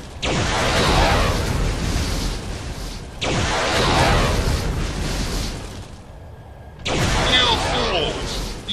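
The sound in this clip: Massive roaring blasts from nuclear weapons in a video game: three long, loud booming bursts, each lasting a few seconds and separated by brief quieter lulls.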